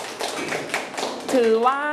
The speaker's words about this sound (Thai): ลูกปรบมือให้เพื่อนหน่อย